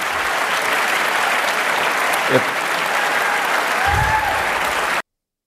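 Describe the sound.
Sustained audience applause at a live talk. Broad, even clapping continues at a steady level for about five seconds, then cuts off abruptly.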